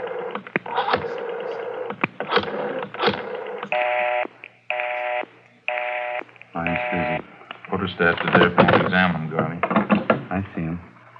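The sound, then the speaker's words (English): Telephone dialing tones sound as someone dials 9 for an outside line, three steady electronic beeps in a row set between stretches of talk and a few sharp clicks. “Dial 9 to get an outside line.”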